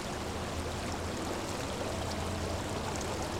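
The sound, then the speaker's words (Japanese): Hot spring water flows in a steady, unbroken rush. The sound is fairly faint and even, with no pauses or separate splashes. “それは何ですか？ ああ、これは温泉のお湯です。”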